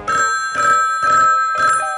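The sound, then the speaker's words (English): A telephone bell rings in four short, evenly spaced bursts, bright and metallic, with no voices. “Well, when the phone rang like this,”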